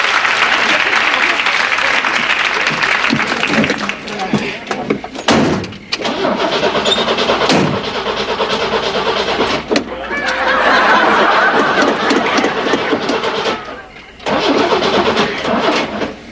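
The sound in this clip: A car engine is cranked over and over: long grinding starter bursts separated by brief pauses, loud and rough throughout, with voices heard at times.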